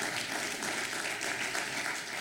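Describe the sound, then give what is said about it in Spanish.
A church audience applauds the Lord, a dense and steady wash of many hands clapping, sustained and even throughout without distinct individual claps. “Vamos a darle un aplauso al Señor y di amén, lo voy a hacer.”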